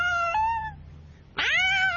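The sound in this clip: A pet cat meows twice, loud and clear, while its owner cleans a fish tank. The first call is steady and tonal; the second rises sharply, then holds a long, drawn-out tone.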